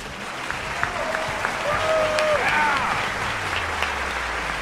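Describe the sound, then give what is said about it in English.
Steady audience applause greeting guests at a live show, a dense, even wash of clapping for several seconds with a few faint whoops rising above it. “Thanks for the applause,”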